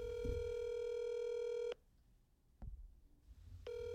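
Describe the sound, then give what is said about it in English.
Telephone tones as a number is dialed: a long, steady electronic tone, then a break with a soft click, then the tone starts again. “Anyway, let's just dial and let's just do this.”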